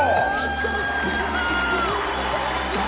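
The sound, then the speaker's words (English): Audience cheers and whoops as a performer is welcomed onto a stage, a dense, steady roar of crowd voices with shouts and yells running through the whole stretch at a constant loud level. “I want you to put your hands together and welcome him to the stage.”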